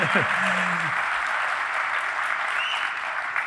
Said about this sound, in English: I was not begging for your applause right there.